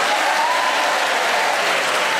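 A studio audience applauds to welcome the four players of a panel game, a dense, even wash of many hands clapping at a strong, unbroken level.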